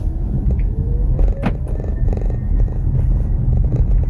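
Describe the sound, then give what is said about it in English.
Steady low rumble and hum of a 2022 Kia EV6 electric car shifted into drive and pulling away, with a faint rising whine over continuous road and motor noise and no talk. “Let's twist this big knob into drive and let's go for a quick spin.”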